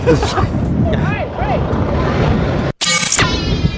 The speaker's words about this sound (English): The wind is so bad here in Palm Springs that it caused the stoplight to fall over.